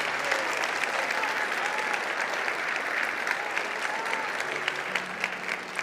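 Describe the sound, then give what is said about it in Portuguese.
An audience claps for Jesus during a Portuguese-language church service. Dense, sustained applause from many people holds an even level throughout. “Quarto, aplauda Jesus.”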